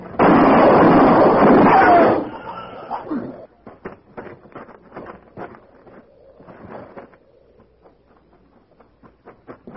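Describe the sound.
A single gunshot bursts out as a loud, harsh blast that rolls on for about two seconds before cutting away, followed by quieter scattered sounds and people talking.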